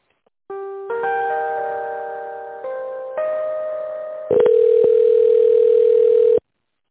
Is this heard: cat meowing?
no

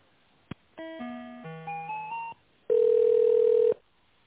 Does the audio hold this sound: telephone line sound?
yes

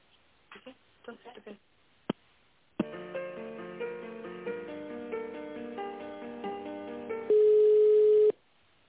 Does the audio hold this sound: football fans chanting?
no

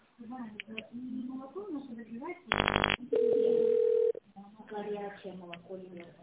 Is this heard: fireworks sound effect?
no

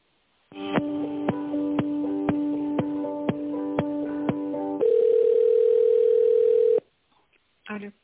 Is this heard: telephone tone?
yes

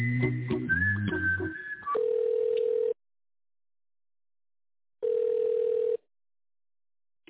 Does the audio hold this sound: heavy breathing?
no

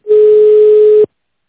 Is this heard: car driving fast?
no

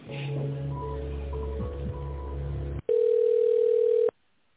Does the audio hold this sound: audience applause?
no

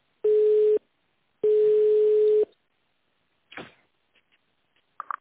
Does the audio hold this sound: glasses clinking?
no

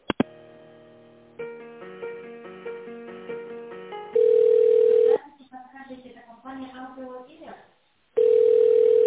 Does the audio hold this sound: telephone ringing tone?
yes

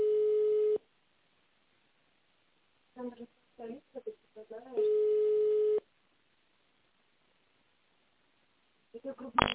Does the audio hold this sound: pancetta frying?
no

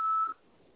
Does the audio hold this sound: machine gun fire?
no

